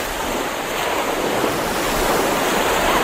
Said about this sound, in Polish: Plaża też bałtycka, ale... Proszę posłuchać. Słyszą państwo? To morze.